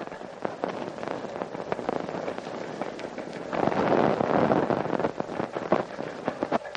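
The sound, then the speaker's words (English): Gunfire exchanged between colonial Minutemen and British regulars marching on Concord: many sharp, irregular cracks and bangs over a steady rumbling background, fairly loud and continuing throughout. “There's been an exchange of shots, as you've heard, between the Colonial Minutemen and His Majesty's regulars who are marching on Concord.”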